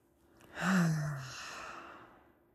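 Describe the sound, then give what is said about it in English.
A single deep breath, soft at first, swelling into a full, airy rush, then easing into a long, fading exhale, heard on its own with no talking. “Let's take a moment to simply take a deep breath.”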